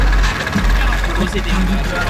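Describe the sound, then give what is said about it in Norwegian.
A small red moped car's engine runs outside a high school. It makes a steady low rumbling drone with heavy, shaking low-end vibration, and a person talks over it. “Ja, bare skru den på. Bilmotoren durer, og det rister godt fra bassen.”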